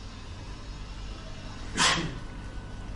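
A single sharp sneeze bursts out briefly against a steady low background hiss, standing out for a moment before the hiss carries on alone.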